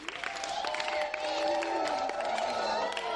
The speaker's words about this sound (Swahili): Tujipigie makofi na vigeregere.